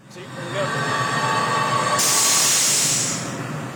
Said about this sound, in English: That's the sound of a pneumatic controller in action.